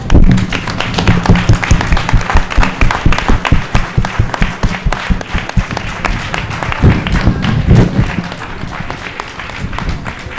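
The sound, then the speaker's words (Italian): An audience gives loud, dense applause as a standing ovation at an evening performance, many hands clapping continuously, easing slightly toward the end. “volevo tutto l'applauso per Edoardo, ci stava, continuate, fatemi fare standing ovation per gli altri.”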